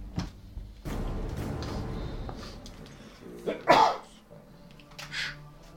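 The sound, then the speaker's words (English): A single sharp sneeze bursts out partway through during a tabletop role-playing game session, set among voices and brief murmurs, with a short noisy rush before and quieter sounds after. “God damn. Sneeze on your own.”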